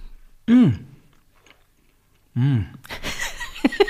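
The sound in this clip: Biscuits being chewed, with soft crunching near the end, preceded by two short hummed voice sounds that fall in pitch.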